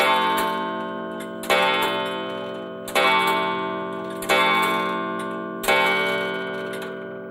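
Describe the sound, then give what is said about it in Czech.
A clock strikes five o'clock: five ringing, bell-like chimes evenly spaced about a second and a half apart, each one sustained and slowly fading before the next strike. “Když hodiny odbíjely 5, všichni sebou trhli.”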